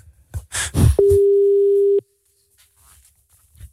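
A telephone ringback tone plays while a call is placed: a single loud, steady, even-pitched tone lasting about one second, then silence. A short burst of noise comes just before it.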